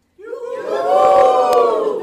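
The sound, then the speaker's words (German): An audience bursts into loud cheering on cue after a count of three. The roar of many voices starts abruptly, swells slightly and holds strong and steady. “Ich zähle jetzt bis drei und dann jubeln Sie mal, okay?”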